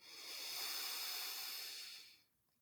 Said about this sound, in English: Hold it. And slowly let it go through the mouth.